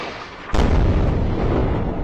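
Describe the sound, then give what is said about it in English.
A huge explosion in Gaza bursts in suddenly and loudly half a second in, then continues as a dense, sustained rumbling roar. “Another huge explosion in Gaza.”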